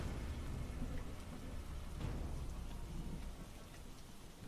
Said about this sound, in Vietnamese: Trời về đêm, cơn mưa cũng dần dần ngớt.